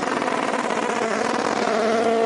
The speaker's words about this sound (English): that sounded fantastic, that Gibson engine, right, hammering off the rev limiter.